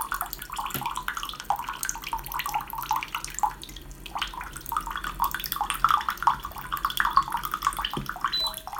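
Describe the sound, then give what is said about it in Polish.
Boiling water pours from an electric water dispenser in a steady, trickling stream that lasts throughout, with a couple of faint knocks near the start and end. “Naciskam przycisk do nalania wody. I już leci wrząca woda.”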